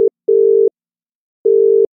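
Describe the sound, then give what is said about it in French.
A British telephone busy tone sounds as a steady, clean mid-pitched beep, pulsing on and off at a regular pace, with short tone bursts separated by silent gaps. “en Angleterre, en vrai, quand tu appelais ou quand on t'appelait, ça faisait ça.”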